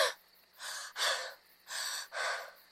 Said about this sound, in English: Oh, I am out of breath in this fond chase.